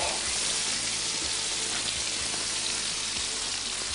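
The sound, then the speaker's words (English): Bacon fries and crisps in a pan with a steady, fairly quiet sizzling hiss, broken by scattered small pops and crackles, with no voices over it. “All right, so let me just toast this bacon up just a little more. You like your bacon crispy?”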